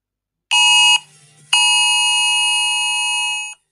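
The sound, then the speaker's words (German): A nationwide test warning alarm in Germany: a short, loud, piercing high-pitched tone, a brief pause, then a long steady tone of about two seconds that cuts off abruptly. “Das ist die Probemeldung der Warnalarm, ihr Lieben.”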